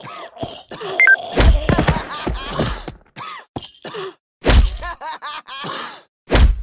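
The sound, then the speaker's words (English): In a mobile video game, a baseball bat whacks a clown with a few loud, sharp thwacks. Groaning cries and other game effects sound between the hits. “No, swipe on the screen to use bat here.”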